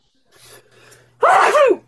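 A single loud, explosive human sneeze with a sharp upward then falling pitch, preceded by a soft, breathy intake of air.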